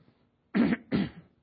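Throat clearing, two short, rough bursts in quick succession, moderately loud against near silence.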